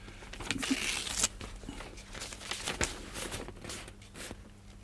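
Paper rustling and crinkling as a letter is unfolded, a run of soft, irregular crackles and swishes, faint throughout.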